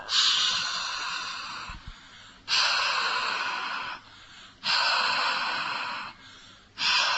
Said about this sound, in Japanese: まずじゃあ、音を出さないで、はーって言っておきましょうか。今の息で、